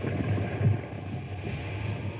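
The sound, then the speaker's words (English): A barge is eased up onto a riverbank in strong wind, carrying a trailer: a continuous broad rumble of wind and water noise with low, churning undertones, steady and fairly loud throughout, with no talk. “We're going to ease this barge up on the riverbank so she'll stand steady.”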